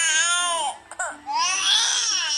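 A recorded baby cry plays from a phone app: two long, high, wavering wails separated by a brief catch of breath, loud and steady, with no other sound.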